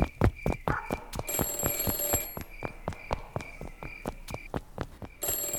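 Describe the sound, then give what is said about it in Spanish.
An office telephone rings in a rapid, steady string of bright bell strikes. Many sharp metallic hits run through the whole clip with no voices. “Espere, escuche. ¿Eso es el teléfono de mi despacho? Sí, eso parece.”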